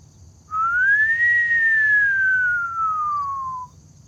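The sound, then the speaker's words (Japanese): A voice imitating a whistling "pyuu" sounds one long, clear tone that rises briefly, then glides slowly downward for about three seconds, heard alone. “僕がピューと言いますんでいきますよ”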